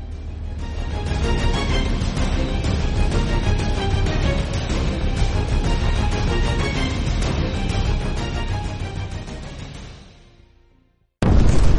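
M77 rocket submunitions exploding in the sky, scattering fragments: a dense, loud, continuous roar of blasts that fades out near the end, followed by a brief silence and an abrupt loud burst.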